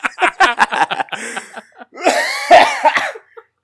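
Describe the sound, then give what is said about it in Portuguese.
Coughing from a former smoker, set off by laughing: a rapid run of short, sharp coughs, then a longer, harsher, raspy coughing fit that fades out. “eu paro de fumar, mas a tosse não sai, é só rir que vem a tosse.”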